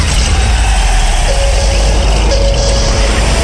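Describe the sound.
A car engine running with a loud, steady low rumble, a continuous droning roar throughout, with a faint thin tone appearing partway through.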